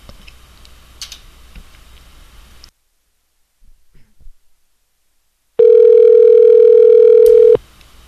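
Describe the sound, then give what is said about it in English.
A telephone is used to dial a 1-800 number: soft, irregular button clicks, a pause, then a loud steady electronic tone held for about two seconds before cutting off. “Okay, I'm going to call 1-800 number here.”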